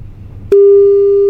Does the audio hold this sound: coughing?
no